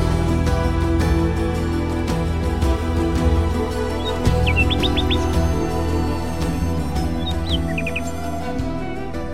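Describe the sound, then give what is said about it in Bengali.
A bird calls in the early morning: two short bursts of quick, high chirps rise above a steady, droning backdrop that persists throughout. “সাত সকালে ঘুমটা ভেঙে গেল, অন্য কোনো কারণে নয়, একটা পাখি।”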